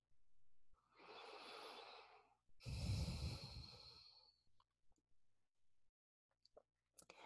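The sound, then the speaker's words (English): A deep breath taken during a guided meditation: two long, airy breath sounds, the second louder and fuller, followed by faint scattered clicks. “And when you just observe and take a deep breath in,”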